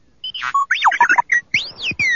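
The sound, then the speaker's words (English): A small astromech-style robot droid beeps and warbles while spinning its dome, a rapid run of loud electronic chirps, whistles and rising and falling sweeps over about two seconds with no talk. “The rebel's droid, R2-D2, stood right where she'd left it, beside her desk, spinning its dome and beeping unintelligibly.”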